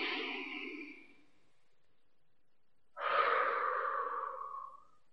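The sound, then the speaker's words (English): Deep breathing during a breathing exercise: a long, airy breath fades out at the start, then after a few seconds of silence comes another full, strong breath lasting almost two seconds. No talk is heard. “All right, let's do that. Let's take a breath.”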